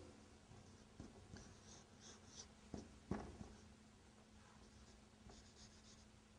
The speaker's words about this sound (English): If I write Al-Kitab, I will write like this.